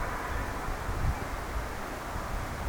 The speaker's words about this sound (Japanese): 風の音がいい感じに撮れなくなっているという感じもするんですが、それなりに風の音がヒューヒュー言ってますよね。